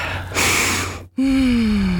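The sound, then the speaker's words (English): A deep breath drawn in as a breathy inhale lasting under a second, followed after a short silent gap by a steady, low, slightly falling voiced tone. “Deep breath.”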